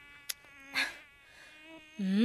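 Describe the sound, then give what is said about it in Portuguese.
Thin, whining buzz of an anopheles mosquito, the malaria carrier, droning steadily with a couple of short clicks, then swelling louder with a rising pitch at the end. “Então são os mosquitos anófilos que transmitem o parasita da malária.”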